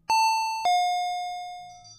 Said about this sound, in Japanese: インターホンが鳴りました。